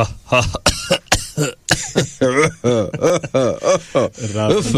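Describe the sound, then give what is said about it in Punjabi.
A light cough as a few short, abrupt bursts, followed by a person talking. “ਹਲਕੀ ਜਿਹੀ ਖਾਂਸੀ ਹੋ ਗਈ।”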